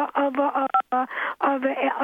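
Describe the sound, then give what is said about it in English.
Brief telephone beep, a short steady electronic tone cutting in once amid continuous talking heard over a phone line. “That little beep you heard on the telephone just then”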